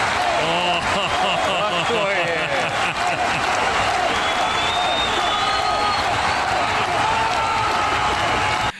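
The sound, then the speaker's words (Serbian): Football fans at Anfield stadium cheer and applaud in a dense, loud, continuous roar of clapping and massed voices that holds steady from start to finish. “vidim ja mislim da, je ovo, da su ovo navijači sa Enfielda”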